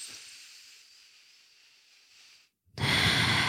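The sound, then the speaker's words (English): A deep breath taken slowly: a long, soft, airy inhale fading over a couple of seconds, a brief silent pause, then a loud, rushing exhale. “I want us to take a collective deep breath.”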